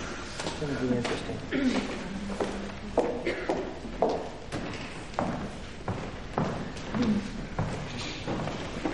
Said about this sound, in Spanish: Hannah baja por las escaleras del aula en la cual imparte clases bajo la atenta mirada de sus alumnos.